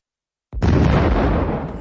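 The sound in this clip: Explosion of a destroyer being hit in a Battleship video game: a single sudden, loud blast that cuts in from silence and holds as a dense, sustained rumbling roar to the end.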